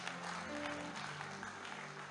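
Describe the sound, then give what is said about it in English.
Church audience clapping for Jesus at the close of a sermon: a faint, steady wash of applause throughout, with a low sustained tonal hum underneath. “I said, clap for Jesus.”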